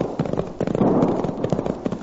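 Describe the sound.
Gunfire in a valley battle between sheepmen and their outnumbered foes: many sharp, crackling shots in an irregular, rapid volley, popping continuously and fairly loud throughout.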